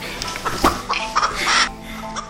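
A rooster flaps its wings in a bright white room, giving short bursts of ruffling feather noise in quick succession, fairly faint and alone.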